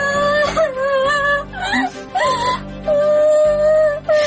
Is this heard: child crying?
yes